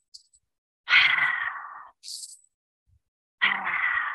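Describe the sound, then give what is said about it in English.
A few loud, breathy breaths taken in through the nose and out through the mouth as part of a rapid breathing exercise. There are airy rushes with short gaps between them and no talking. “20 breaths in through the nose, out through the mouth. Sounds like this.”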